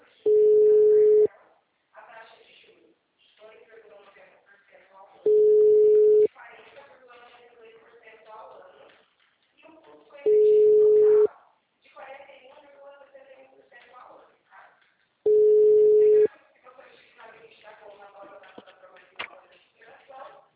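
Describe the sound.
Telephone busy tone after a dropped call: four long, steady mid-pitched beeps at even intervals, with a person talking in the gaps between them.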